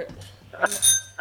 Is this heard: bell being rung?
yes